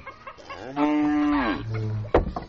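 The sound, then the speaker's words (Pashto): A cow lets out one long, loud moo, its tone dropping lower toward the end, standing alone with no talk over it. “زر لښتې غوا دې څه کوله چې را دې وسته؟”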